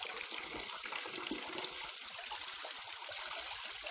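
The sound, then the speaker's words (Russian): A shower running in a wooden plank booth, a steady, dense hiss of spraying water that holds at an even level throughout without pause. “принимает душ в дощатой кабинке”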